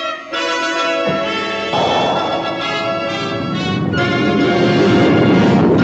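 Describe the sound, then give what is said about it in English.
A spacecraft's main retro rockets fire with a loud, broad roar that swells in steps and then holds, under a sustained tonal whine. “Fire main retros. Firing main retros.”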